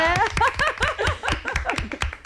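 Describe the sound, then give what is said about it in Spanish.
Studio audience clapping in a steady, rapid rhythm of many sharp claps, with laughing voices mixed in throughout. “Un aplauso para ella,”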